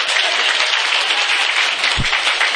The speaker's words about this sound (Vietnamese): Vỗ tay đi.